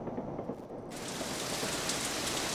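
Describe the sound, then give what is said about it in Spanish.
Heavy afternoon rain pours in a dense, steady hiss that grows fuller and brighter after the first second, then holds at a constant loud level with no pauses. “Ay, pero cómo llueve y yo que no me traje el paraguas.”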